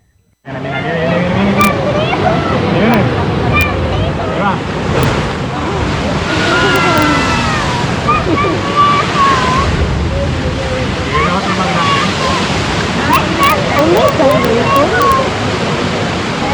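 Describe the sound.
Sea spray bursting from La Bufadora blowhole: a loud, sustained rushing roar of water starts abruptly and persists for the whole stretch, with people talking over it.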